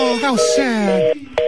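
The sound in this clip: A steady electronic telephone tone sounds after a caller hung up, a constant hum that continues under a person talking.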